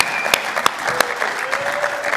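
A church audience applauds to welcome guests during a service, a dense, steady clapping with a few sharper individual claps standing out.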